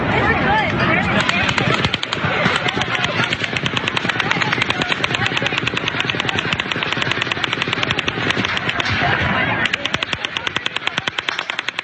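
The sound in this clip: Rapid gunfire, shots fired in quick succession, fills the whole stretch as a loud, dense, continuous rattle of overlapping bursts, with the final seconds breaking into more distinct, evenly spaced shots.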